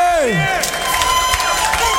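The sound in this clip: A live concert audience in Philadelphia cheers and shouts in acclamation. Voices swoop and wail over a steady roar of crowd noise, with scattered claps and whoops throughout.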